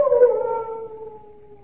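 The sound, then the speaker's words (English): A long howl from a large dog kept at a chateau: one steady, drawn-out tone that falls slightly and fades over about a second and a half. “What was that? Only the dogs, monsieur. They keep many dogs, large dogs at the Chateau d'Azay.”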